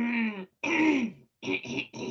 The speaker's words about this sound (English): sorry, I got a frog in my throat